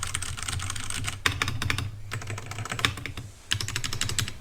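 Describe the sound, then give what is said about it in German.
Typing on a computer keyboard: rapid, continuous clacking of keys in busy bursts, broken by two brief pauses, over a steady low hum. “Und jetzt tippe ich noch mal so ein bisschen rum.”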